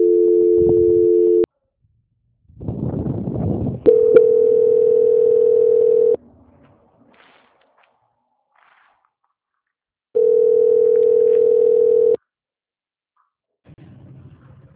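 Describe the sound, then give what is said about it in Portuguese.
Telephone line tones during a call transfer: a steady dual-pitched hum, then a short burst of rough noise, followed by two long, steady mid-pitched tones of about two seconds each, with silence between them. “Certo, eu vou estar transferindo. Eu desejo para o senhor que o senhor tenha um bom dia. Transferência.”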